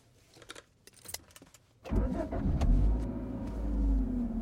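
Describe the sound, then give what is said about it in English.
Car starts and drives off: a few light key jingles and clicks come first, then the engine catches abruptly and settles into a steady rumble that swells slightly as the vehicle pulls away, no voices. “forget it. I'll drive. Seatbelts, everyone.”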